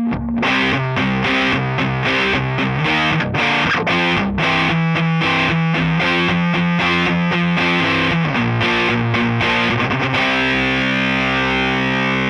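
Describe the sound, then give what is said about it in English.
Thick fuzz-pedal electric guitar played through a Shaw amp set up as a muddy, woofy, low-end amp: a long run of chugging, heavily distorted chords, ending on a single sustained chord left ringing, with no voices. “So on its own, we'll take a look. Here's what that fuzz sounds like through it.”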